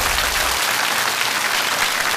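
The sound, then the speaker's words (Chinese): Audience applause welcoming a teacher to the lectern. Dense, even clapping runs steadily throughout with no pauses. “接下来我们就把讲台交给赵渊博老师，一起来聆听他的人生一刻，掌声有请。”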